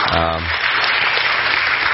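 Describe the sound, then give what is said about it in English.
A church audience applauds to welcome a pastor back from his sabbatical, a dense, steady wash of loud clapping, with a man's voice briefly heard at the start. “Let's give him a hand. Welcoming him back as well.”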